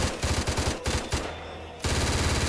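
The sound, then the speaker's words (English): Rapid automatic gunfire from a man shooting with two guns, tight rhythmic bursts of loud shots that stop briefly mid-clip and then resume just as hard. “Now, what's he shooting at?”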